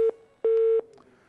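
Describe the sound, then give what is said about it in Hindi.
Phone line tones sound as a call drops: two beeps at the same steady pitch, a short one and then a longer one, clear and alone with only faint line noise after. “ये call हमारे से drop हो गई।”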